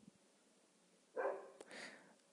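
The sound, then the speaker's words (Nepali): A dog barking outside: two short, faint barks close together over a low, steady background hiss. “मेरो कुराले बाहिर कुकुरले पनि सहमति जनाइरहेछ।”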